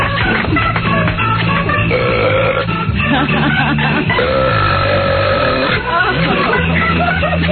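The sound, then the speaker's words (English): A man belches in long, loud, low rumbling gurgles that fill nearly the whole stretch. Voices and crowd babble are mixed in underneath. “guys do belch better than women, don't they?”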